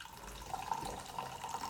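Liquid pouring out of a cocktail glass holding small ice cubes: a soft, gurgling trickle with light bubbling splashes, faint and steady throughout with no voices.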